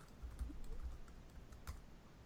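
Faint typing on a computer keyboard, soft irregular key clicks over a low, steady background hum.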